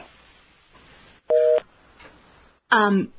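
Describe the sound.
A telephone busy signal after a call is hung up, heard as two loud electronic tone bursts over faint background hiss. The first is steady and the second sweeps and warbles.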